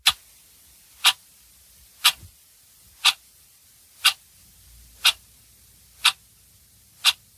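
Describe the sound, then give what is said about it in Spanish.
A clock ticks steadily, giving eight crisp, sharp ticks about one second apart. Each tick stands alone against near silence. “Y sí, es el clásico sonido tic-tac de un reloj.”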